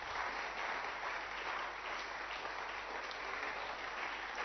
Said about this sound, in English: Applaudissez pour Jésus.